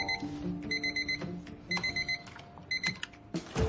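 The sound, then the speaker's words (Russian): An alarm clock at home in the early morning beeps in repeated groups of quick, high, piercing tones, then goes quiet as it is switched off, ending with a brief clatter. “протягивает руку и выключает будильник”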